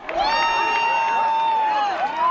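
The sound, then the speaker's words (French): Crowd cheering at a total solar eclipse, nearly a thousand people on a farm field in Segovia province, Spain: one loud, sustained high whoop holds a steady pitch over constant cheering, dips briefly near the end, then rises again. “Ce que vous entendez, c'est ce moment magique de bonheur de l'éclipse totale.”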